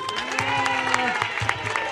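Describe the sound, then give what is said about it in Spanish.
Applause from a crowd at a neighbourhood gathering: a dense, steady patter of many hands clapping at an even level through the whole stretch. “¡Un aplauso!”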